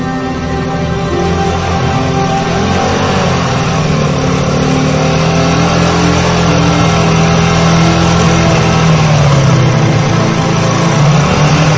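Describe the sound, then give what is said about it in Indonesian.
A motorcycle engine approaching on a road at night, heard as a loud, continuous mid-pitched engine drone that runs steadily throughout with no voices. “ku dengar ada bunyi sepeda motor. Ketika aku berbalik, terlihat cahaya lampu motor yang mendekatiku.”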